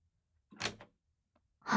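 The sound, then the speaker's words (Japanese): A door being locked gives one brief clunk with a softer follow-up click, then quiet until another short sound starts at the very end. “何鍵閉めてんの？”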